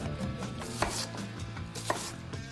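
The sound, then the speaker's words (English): A knife cuts down through an onion held together in the hand, the blade pressed through to the root: dry, crisp slicing with two sharper cracks of the blade and softer crunches between, no voices. “Push the knife halfway into the onion. Slightly tilt the knife down. One at the top. And then gripping the onion like a tennis ball, holding it together in place.”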